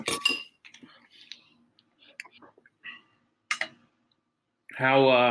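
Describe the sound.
A spoon clinks in a big bowl of mint chocolate ice cream. A few light metallic taps and scattered clicks sound over quiet gaps, and a sustained voiced sound follows at the end.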